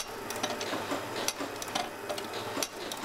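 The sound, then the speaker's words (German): A machine nails reed plates onto Marine Band 1896 harmonica combs, giving faint, irregular mechanical ticks and clicks in a quick ratcheting rhythm that runs on without pause. “Modell Marine Band 1896 war eben zu Beginn schon genagelt und das haben wir weitergeführt bis ins Jahr 2021. Die Maschine ist mit einem großen Vorrat an Nägeln ausgestattet.”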